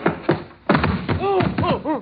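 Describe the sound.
A person being tackled to the ground: a few heavy thumps and thuds in quick succession, followed by strained, groaning vocal grunts.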